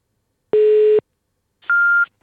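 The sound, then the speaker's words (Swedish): Old-fashioned telephone beeps during an early-morning call: two clear electronic tones, the first lower and longer, the second noticeably higher and shorter, with a short silence between them. “Gud vad det lät gammeldags, det där pipet.”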